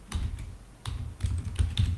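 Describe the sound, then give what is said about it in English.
Typing on a computer keyboard: a few quick bursts of soft, clicky keystrokes separated by brief pauses, fairly faint and with no talk over them. “The one that I want, I'll just type it in,”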